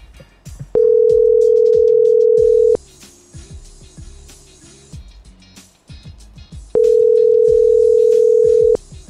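Ringback tone of an outgoing telephone call that goes unanswered: two long, steady, mid-pitched tones about two seconds each, separated by a four-second pause, over a busy low background.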